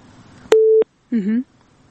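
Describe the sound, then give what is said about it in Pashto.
A phone call cutting off with a disconnect tone: one steady mid-pitched beep, about a third of a second long. A short voiced sound follows after a brief pause. “ښه هلکه چې دوی اړیکه پرې شوه”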